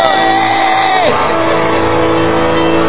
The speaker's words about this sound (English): Hallelujah. Give a shout. Yay!